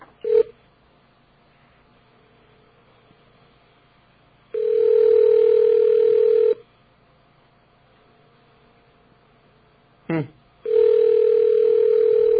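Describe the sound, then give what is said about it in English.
Telephone tones as a special code is dialed: a short beep, then a long steady tone of about two seconds, a quiet stretch, another short beep, and a second long tone, over faint line hiss. “Now we dial a special code, and let's hear it.”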